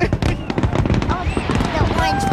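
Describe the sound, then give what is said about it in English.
Fireworks exploding at a public display, a dense run of pops, cracks and crackling bursts with a few whistling streaks, heard beneath steady crowd chatter throughout. “what do you think of the fireworks? They look cute.”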